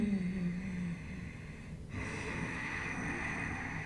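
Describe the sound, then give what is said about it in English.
Constricted-throat breathing through a partly closed glottis, with a husky, Darth Vader-like rasp. Two long, steady breaths are separated by a brief pause, soft but continuous. “you just close your glottis so you have that little like a husky or Darth Vader kind of sound. So it sounds like this.”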